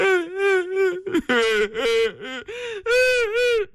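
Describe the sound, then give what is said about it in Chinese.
A single voice imitates a father and daughter wailing and sobbing. Loud, drawn-out, quavering wails are broken by short gasping catches, with a few brief pauses between bursts. “父女俩又哭了。”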